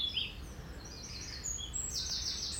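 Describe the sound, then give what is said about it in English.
Faint bird song at a retreat: thin, high chirps and twittering float over a steady low background hiss, with no voices present. “try and take that in. Rather than see it as something to be annoyed at. Taking the bird song.”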